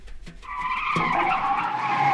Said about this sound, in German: Er riss das Steuer herum und fuhr den Wagen quer über die Gegenfahrt.